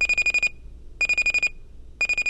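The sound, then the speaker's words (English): Alarm clock going off with rapid, high electronic beeps in three short bursts separated by pauses. The last burst is cut off, and the beeping is loud and clear. “About 2 hours before you'd actually like to be conscious, the numbers on your alarm clock hit that magical combination 6:15.”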